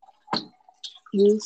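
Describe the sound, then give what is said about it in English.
Uncooked squid dropped into a betta fish tank makes a small watery plop and a couple of faint drips, followed by a short burst of voice. “Uncooked squid. I'm feeding my fish, guys. Squid. Yeah, I'm feeding my beta fish.”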